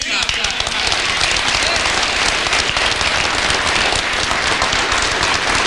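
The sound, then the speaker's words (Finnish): Loud, sustained applause from delegates at a political party council meeting, a dense, continuous crackle of many hands clapping without a break. “Puoluevaltuuston kokouksen yhteydessä Purra moitti etenkin SDP:n puheenjohtaja Antti Lindtmania saaden suuret aplodit.”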